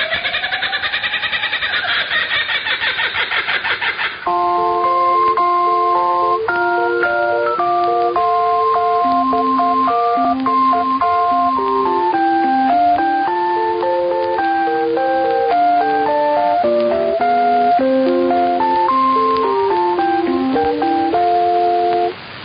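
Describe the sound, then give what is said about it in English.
An interval signal from an Australian shortwave radio station: a looping melody of clear, bright electronic tones, narrow-band and steady, following a brief noisy warble at the start. “They also have a very interesting interval signal, which sounds a little too similar to Radio Australia”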